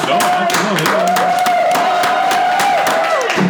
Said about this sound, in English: Can you get them to make some noise for you? Make some noise. Make some noise.